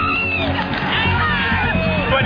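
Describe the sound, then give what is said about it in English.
A Tour de France finish crowd roars and screams in a continuous, loud mass of cheering, whoops and shouting as spectators react to the result. “There was this universal cry of, the crowd has realized it.”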